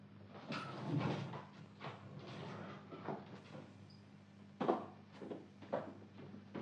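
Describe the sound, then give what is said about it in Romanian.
A door is eased slightly open in a radio drama. A few faint, soft scrapes and knocks sound over a quiet background. “Crapă puțin ușa. Bine, bine, mă duc.”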